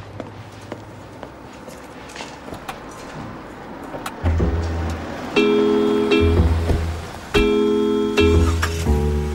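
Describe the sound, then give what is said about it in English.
A car taken out for a test drive after repairs: a steady low engine rumble that grows louder partway through, with humming tonal bursts rising over it a couple of times. “So I think we found the problem this time, but I'd feel more comfortable if you let me take it for a test drive first. You okay with that? Yeah, okay. Okay, hop in.”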